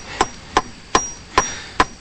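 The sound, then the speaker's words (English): A hammer taps a staple into place with five sharp, evenly spaced knocks, each a crisp, brief click with a faint metallic ring, over a quiet background. “The displaced soul collector gets a staple, holds it in place, and swings the hammer.”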